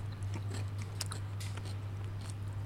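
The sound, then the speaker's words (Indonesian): Faint crunchy chewing and biting on odading toast, an Indonesian fried dough bread that is toasted here instead of fried. Scattered soft crackles sit over a steady low hum. “tahu nggak yang gue cobain apa? Apa? Ini odading toast. Wow. Ini pertama di Indonesia. Hmm. Biasanya odading itu kan dimasaknya digoreng ya. Ini di toast.”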